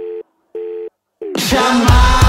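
A telephone gives steady mid-pitched tones as a call is placed: two full beeps and a third cut short, then a loud, harsh burst of noise.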